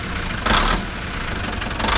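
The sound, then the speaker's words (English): A boat's engine is put into gear and the throttle is slowly pushed ahead, giving a steady, loud, low mechanical drone with one brief surge in loudness early on. “Pierre put the boat in gear. And slowly pushed the throttle ahead”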